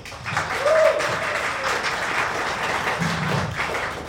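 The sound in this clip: An audience applauds to welcome a visual artist and poet on stage, with moderate, even clapping sustained throughout and a few scattered louder taps.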